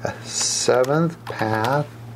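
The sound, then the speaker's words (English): Typing on a computer keyboard: a few scattered key clicks under a person talking. “And I'm going to type in, so you're getting the inside scoop of what's going on here.”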